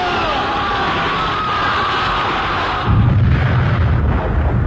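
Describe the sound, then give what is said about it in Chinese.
A guerrilla gunfire volley rattles out in battle as a dense, continuous crackle of shots that grows heavier, with a deeper rumbling boom after a few seconds. “随着游击队的一阵枪声，匪军大乱。”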